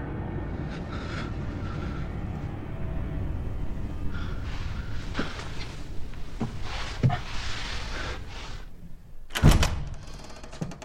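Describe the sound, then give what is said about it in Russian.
A door opens in a film scene, giving a few soft knocks and creaks over a low, quiet rumble, then one sharper, louder thud near the end. “Открывается дверь.”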